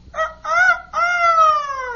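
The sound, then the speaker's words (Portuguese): A rooster crows loud and clear in three parts: two short notes, then one long drawn-out note that slowly falls in pitch, over a faint low background hum. “Agora eu sou um galinho. E, amiguinhos, vejam só. Em vez de kikiriki, eu faço cocoricó.”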